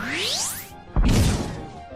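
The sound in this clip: A power punch attack lands in a turn-based video game battle: a rising synthetic whoosh sweeps upward, then stops. After a brief gap comes a loud, noisy impact burst that decays quickly.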